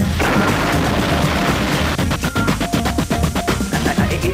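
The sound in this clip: A rocket blasting off gives a loud, continuous roar that grows into a pulsing, crackling rumble in its second half, with no voices over it.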